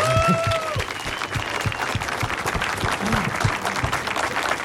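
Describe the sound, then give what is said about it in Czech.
Audience applause at a book launch celebrating a theatre, with dense, steady clapping that carries evenly throughout. “To chce potlesk.”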